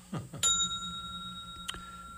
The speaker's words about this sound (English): Oh, this is a different bell this evening.